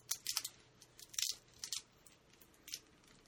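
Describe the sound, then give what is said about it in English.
A battery is unwrapped from its packaging, giving several short, faint, crinkly crackles and rustles at irregular intervals, with quiet gaps between them. “Look, this is going to be unwrapped. Unwrapping the battery.”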